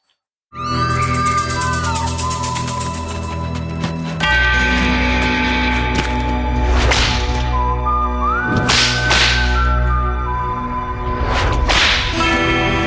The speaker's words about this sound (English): an ad in which he showed basically a mock-up of shooting at Speaker Pelosi, President Biden, and Mark Kelly, whose wife was literally shot by an assailant. Let's play a little of that ad.